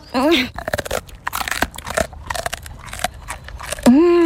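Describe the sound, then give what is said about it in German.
Crunching of a dog biting into a bravery treat after a vet visit: rapid, irregular crisp crunches and chewing sounds, with voices speaking at the start and end. “Und jetzt gibt es noch ein Tapferkeitsleckerchen.”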